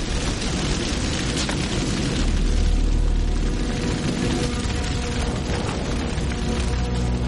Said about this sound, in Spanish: La llama se envuelve en varios árboles y un merendero.